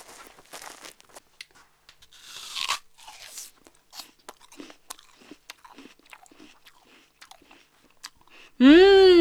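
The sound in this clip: Crisp bites and chewing into a fresh apple picked from orchard trees bearing unsprayed fruit: many short crunches in an uneven rhythm with wet chewing between them, ending in a sudden loud tonal burst.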